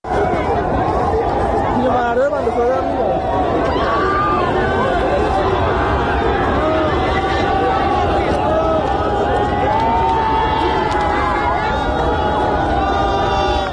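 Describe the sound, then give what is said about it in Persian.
A crowd of people comes down from the cemetery section where Pouya Bakhtiari is buried, with dense, continuous loud chatter and shouting voices that never let up. “این مردم همه از قطعه که پویا بختیاری دفن هستش داره میان پایین.”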